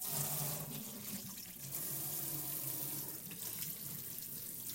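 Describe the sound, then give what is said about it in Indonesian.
Water runs from a tap as hands are washed before cooking, a steady, even splashing rush that continues throughout with no talk over it. “sebelum kita masak kita cuci tangan dulu kak oke okay, siap biar tangannya bersih”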